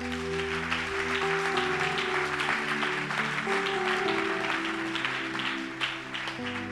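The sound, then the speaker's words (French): A church audience applauds in praise of the Lord during a worship service. A busy wash of clapping runs over sustained keyboard chords and keeps a fairly even level throughout. “Est-ce qu'on peut changer Alléluia. Est-ce que tu peux acclamer le Seigneur”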